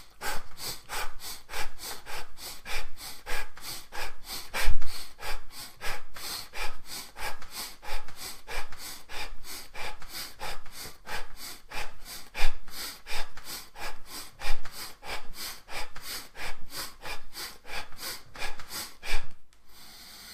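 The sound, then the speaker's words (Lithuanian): Rhythmic breathing during a morning priming breathing exercise: many quick, forceful breaths follow one another in a steady, even pulse with no talking. “tiesiog kvėpuoti taip, kaip reikia kvėpuoti. Labai svarbus darbas yra kvėpuoti.”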